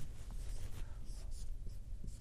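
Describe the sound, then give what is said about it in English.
Scratchy pen or marker strokes drawing a little box during a parenting lesson, a steady, even scraping with a few brief accents and no talk. “And the first, I'll draw this little box over here.”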